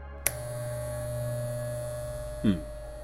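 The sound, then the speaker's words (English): Electric hair clippers buzzing: a sharp click, then a steady, continuous low electric hum with a faint, brief bump in sound near the end. “I really hope that that is a set of hair clippers.”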